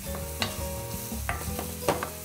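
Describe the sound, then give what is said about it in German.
Onions sweat in a pan of oil left from frying carrots, a soft, steady sizzle broken by a few brief scraping stirs, fairly faint and without talk. “Unser Öl, in dem wir gerade die Karotten angebraten haben, ist ja noch drin. Und da kommen jetzt unsere Zwiebeln dazu. Kurz anschwitzen.”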